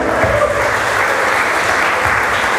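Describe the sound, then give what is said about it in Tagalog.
Applause from a church audience during a sermon: a loud, continuous roar of many hands clapping, even and sustained from start to finish. “Palakpakan po natin ang Panginoon.”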